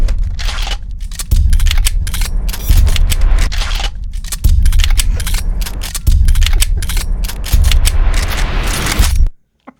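Gunfire rings out in a scene from an action movie. Dense, loud volleys of many sharp shots sit over a heavy low rumble, then stop abruptly.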